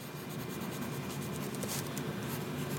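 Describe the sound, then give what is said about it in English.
Several people in a writing group write on paper on a winter day, pens scratching and rustling in a steady, continuous hiss with no talking. “That's the sound of people writing in the winter on one of those bleak days that end at about 3:45 p.m.”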